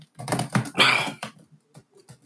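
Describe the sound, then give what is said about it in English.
Quick typing on a computer keyboard, irregular clattering keystrokes in a dense burst at first, then thinning to a few sparse taps. “Quick little type, excuse me.”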